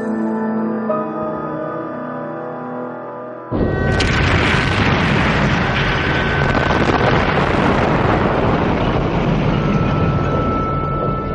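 Explosions from a constant bombing raid over a smoke-filled bunker where Magda Goebbels and her children shelter with Hitler. A few seconds of soft tonal music give way abruptly to a loud, sustained rumbling roar of blasts that continues without letup.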